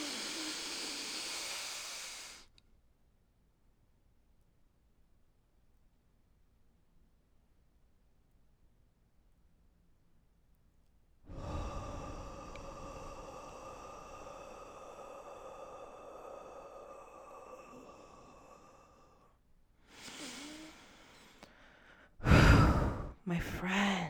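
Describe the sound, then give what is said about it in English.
Deep breathing exercise: a slow breath fades out into a long quiet hold, then a drawn-out exhale, followed by a few short breathy sounds at the end. “We're gonna inhale for four seconds, hold it for seven, and exhale for eight. Let us breathe.”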